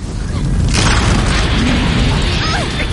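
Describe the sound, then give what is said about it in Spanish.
A volcanic eruption blasts rock fragments loose as the ground cracks open in an animated prehistoric ice-age setting. It is a loud, sustained roaring rumble that surges sharply early on and then stays steady to the end. “Se produce una erupción. Las ardillas y la bellota salen disparadas sobre una roca. Se desprenden fragmentos de la roca.”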